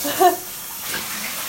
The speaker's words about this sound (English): I'm also running the water in the shower